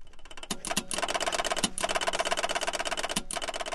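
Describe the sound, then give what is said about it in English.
Rapid mechanical clattering from a running replica of the 1867 stock ticker built by Berner Machine Labs. Dense, fast ticks and clicks form a steady, unbroken rattle at even loudness, with no talk. “That is the sound of a stock ticker. It comes from a replica made by Berner Machine Labs.”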